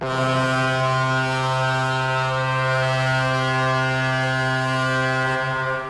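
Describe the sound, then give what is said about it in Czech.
A ship's siren sounds one deep, steady horn blast as the vessel nears Colombo at night, rich in harmonics and held without a break for about six seconds. “a siréna se rozhoukala.”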